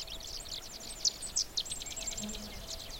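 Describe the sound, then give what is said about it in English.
Sedge wrens in a wetland by a brushy alder patch give many quick, high, thin chips in an irregular run over a steady background hiss, fairly faint throughout. “There's also the sound of sedge wrens. The place is just full of sedge wrens. And they're making a sound, chip, chip, chit, chit, chit, chit, chit.”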